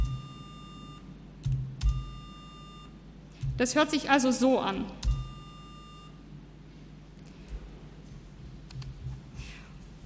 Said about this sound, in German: jetzt kann ich also erstmal einen normalen Beepton generieren. Sagen wir mal 800 und das jetzt für 1000 Sekunden.